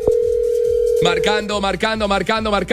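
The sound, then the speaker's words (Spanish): A telephone line tone sounds as a call is dialed during a live phone-in draw. A sharp click is followed by a steady single tone for about a second, then a voice comes in over the end of the tone. “Marcando, llamando.”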